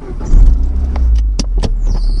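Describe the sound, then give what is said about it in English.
A car engine running with a new, noisy belt: a low, steady rumble topped by a few brief, high squeaky chirps. “This car is a trooper, man. I don't know how she does it. I don't even know why that belt is doing that.”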